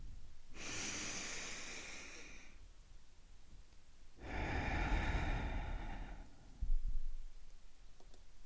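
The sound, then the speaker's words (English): A deep breath: two long, soft airy breaths, each lasting about two seconds, separated by a quiet pause. “So let's take a deep breath in and look for the things that we appreciate in that month.”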